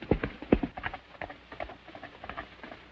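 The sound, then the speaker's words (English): A mounted horse gallops away from a ravine, its hoofbeats loud and sharp at first, then growing fainter in an uneven clip-clop rhythm. “Still mounted, Zanty turns and gallops away.”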